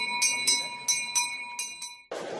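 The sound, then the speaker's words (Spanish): A bell rung by children to start a Corpus Christi procession on a sunny morning: six clanging strikes come in an uneven rhythm with a sustained ringing tone between them, then the ringing gives way to a burst of broad noise. “los niños carráncanos hacen sonar la campana para que la procesión del Corpus arranque”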